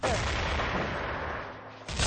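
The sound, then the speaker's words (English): Desert Eagle pistol gunfire in a capture-the-flag shooter video game, dense and booming, with a sustained burst that dips and then surges again near the end. “And Whip with a double kill here from his Desert Eagle, Fenora, and Suicide.”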